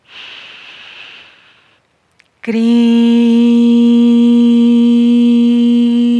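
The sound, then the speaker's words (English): A deep breath is drawn in as a soft airy hiss lasting about a second. After a brief pause, a loud sustained tone with rich harmonics begins and holds steady. “We inhale again.”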